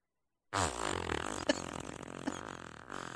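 A long, drawn-out fart rips steadily for a few seconds at a fairly even, low, buzzing pitch, starting abruptly and staying loud throughout.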